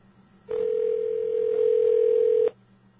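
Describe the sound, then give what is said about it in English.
A steady single-pitch telephone tone sounds while a call connects. It holds for about two seconds, alone and fairly loud, then cuts off cleanly. “Sure does take a while for phone calls to connect.”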